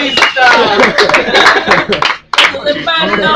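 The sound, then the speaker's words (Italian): Applause in a studio setting, crisp hand claps mixed under lively talk and chuckling, the clapping continuing with a brief drop near the end. “Nel frattempo è arrivato un applauso.”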